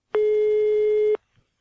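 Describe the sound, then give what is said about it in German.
A telephone busy signal sounds as one steady, mid-pitched electronic tone lasting about a second. It starts and stops cleanly and is followed by a faint click. “Der Anschluss ist besetzt. Wollen Sie warten?”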